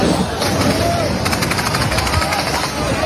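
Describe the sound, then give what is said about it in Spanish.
Gunfire and heavy booms in Gaza City: a dense, loud, continuous rumble with a quick rattling burst of shots near the middle. “Es el sonido permanentemente allí, es el sonido de las bombas, nos lo acaba de contar Esperanza.”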